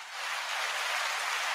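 Studio audience applause for an interview guest, a hissing, rain-like rush of many hands clapping that swells slightly and then holds steady.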